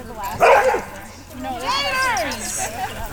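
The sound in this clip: Dogs barking among a large pack of dogs of all shapes and sizes on a show set, with a sharp bark early on followed by higher, drawn-out whining yelps, with voices mixed in.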